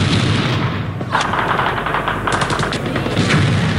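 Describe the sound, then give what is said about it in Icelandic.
Machine-gun fire erupts near a hotel during fighting involving the Jordanian army, making a loud, continuous roar broken by bursts of rapid shots. No voices are heard. “Þegar við heyrðum allt í einu hryðskotabyssur og það sem hljómaði eins og sprengja, ein lenti rétt hjá hótelinu.”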